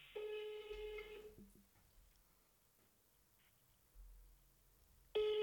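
Ringback tone of an outgoing telephone call: one buzzing ring of about a second at the start, a long quiet gap, then the next ring beginning just before the end. No voices.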